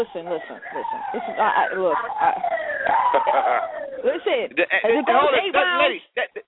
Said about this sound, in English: That's the ambulance coming for little Coco and Dusty.